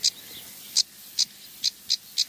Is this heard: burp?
no